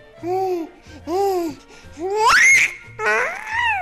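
A baby babbles and giggles in four separate bursts of loud, high-pitched vocalising, and the third burst rises sharply in pitch.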